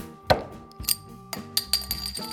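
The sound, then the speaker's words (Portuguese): Light glass clinks and knocks as a beer glass is picked up for a sensory beer tasting, a few bright, separate taps spread across a quiet background. “Primeiro você pega o copo.”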